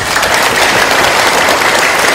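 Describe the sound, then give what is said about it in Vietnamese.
Audience applause at a Buddhist dharma talk: dense, steady clapping from a crowd that holds at an even, fairly loud level for about two seconds without pause. “Là mình thấy hạnh phúc, đã cho tràng pháo tay cái đã này.”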